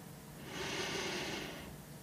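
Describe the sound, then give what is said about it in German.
A deep inhalation during a guided gratitude meditation: one long, slow breath in with a soft, airy hiss that swells and then fades, with no other sound. “dann atme ganz tief ein”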